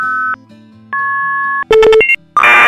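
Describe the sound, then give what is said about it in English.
Telephone tones as a call is placed to an old phone booth number now routed to a conference line: two long steady dual-pitch tones, then a quick run of beeps and a higher tone, ending in a loud noisy burst. “And what's awesome about this number? Here, I'll call it right now and you can hear what it sounds like.”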